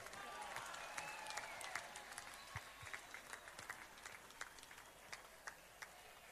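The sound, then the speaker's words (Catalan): Applause for the festival committee at the Sant Andreu Festa Major, a dense, steady crackle of many hands clapping that stays even and fairly faint throughout. “I demano per la Junta, fem un gran aplaudiment.”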